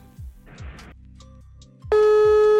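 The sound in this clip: A phone busy signal sounds while calling a friend. Quieter muffled sounds come first, then a loud, steady tone cuts in and holds to the end.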